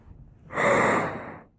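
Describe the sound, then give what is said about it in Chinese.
A single short, sharp breath, a quick gasp-like intake that swells and fades within about a second, heard alone against near silence. “我这是呼吸有一点急促”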